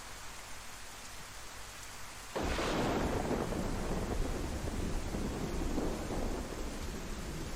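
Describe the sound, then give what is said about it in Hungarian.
Thunderstorm in a video game: steady rain hiss is joined by a sudden, deep rumble of thunder that swells and then fades into continuous heavy rainfall, with no talking. “Esküszöm, ijesztőbbek ezek a vihar hangok. Mint korábban.”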